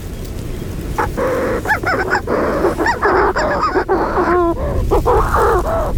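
Calls of an agile, black-backed bird: many loud, harsh, harmonic cries with bent, wavering pitch, repeated at an irregular pace over a constant noisy backdrop.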